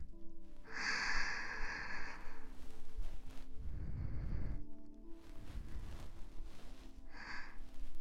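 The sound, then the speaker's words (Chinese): Long, deep breaths taken during a relaxation exercise: a few quiet, airy breath sounds over a low steady hiss. The first is a long, hissing draw of air; a later one is lower and rougher, and a short faint one comes near the end. “再来一次，更长更深的呼吸。”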